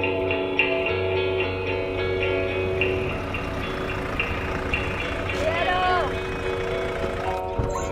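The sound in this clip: A car arrives with a steady droning engine hum and layered tones, a brief higher squeal rising near the end.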